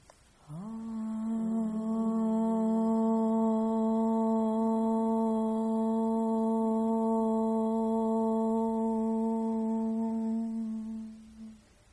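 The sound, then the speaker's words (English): A soft, sustained om chanted together to close an evening yoga practice: one steady low hum holds for about eleven seconds, then gently fades out. “We'll close our practice this evening with a very soft om. Inhaling together.”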